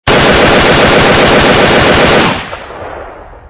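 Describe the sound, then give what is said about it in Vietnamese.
A loud burst of automatic gunfire, a dense, rapid string of shots lasting about two seconds before it cuts off into a fading rumble. “Ngón tay tên Tám miết mạnh lên cò súng, một loạt đạn nổ vang cùng đà.”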